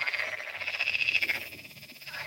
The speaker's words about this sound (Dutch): Kikkers vinden het een goed plan. Die gaan kwaken.